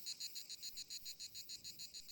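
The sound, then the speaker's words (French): Cicadas chirp in a high, raspy buzz that pulses in a fast, steady rhythm of many short bursts, faint and continuous. “avec un petit fond de cigale”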